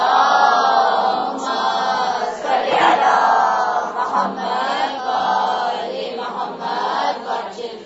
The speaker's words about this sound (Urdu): بابا سے بلند نعرہ صلوات.